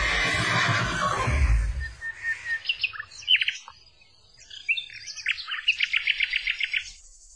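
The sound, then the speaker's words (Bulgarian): A young, lively horse whinnies with a high, quavering call that falls in pitch after a rough, noisy opening. A quick run of bright, high bird chirps follows, and no one speaks. “Хайде, конче, по-бързо!”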